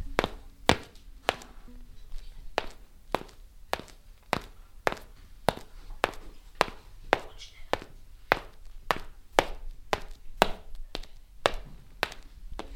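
Footsteps of someone walking give many evenly spaced, faint taps in a steady rhythm that runs the whole time, with no talking.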